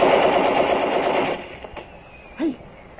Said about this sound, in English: up that hill to where the machine gun is supposed to be. There was cover all right, but those bullets were chipping rocks all around us.